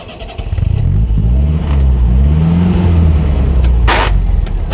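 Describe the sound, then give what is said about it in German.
A car engine revs as the car pulls away in Paris, with a loud rumbling drone whose pitch climbs as it accelerates and then holds steady. “Stephen Buck steigt in seinen Wagen, fährt Richtung Bois de Boulogne.”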